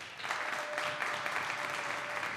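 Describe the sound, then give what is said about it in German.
Audience applause cast as a vote between Hela and Heinz ketchup at a live show. The clapping is faint and steady, with a thin constant tone beneath it. “So, jetzt erstmal euer Applaus für Jana und die Frage nach Hela oder Heinz Ketchup. Euer Applaus!”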